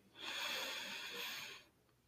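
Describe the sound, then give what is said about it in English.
A deep breath taken during a guided breathing exercise: one long, soft, airy rush lasting about a second and a half, faint and heard alone. “I want you all to take a deep breath in.”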